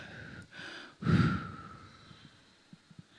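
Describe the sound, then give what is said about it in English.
A single deep breath: a short, loud, airy rush of air, then quiet with a few faint clicks afterward. “Take a deep breath.”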